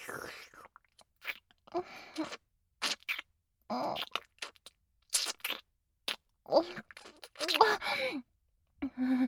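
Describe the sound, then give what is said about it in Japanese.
Wet kissing of lips and tongue: many short smacks, slurps and breathy sounds in irregular bursts separated by brief silences. “今日もとってもおいしいわ、君とのキス。唇を重ねて、いやらしく舌を絡め合って、唾液を混ぜ合わせて、”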